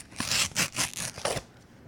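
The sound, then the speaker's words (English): An envelope is ripped open with a few rough, papery tearing strokes, crisp and fairly loud, then a quiet tail. “So within the 70s envelope, there is a song that we're going to play. And I'm excited because I'm not really sure what it is. So let's rip it open and see what it is, shall we?”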